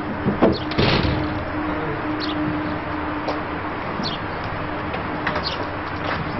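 A door being closed and locked, heard as a few sharp knocks and clicks over a steady background hiss.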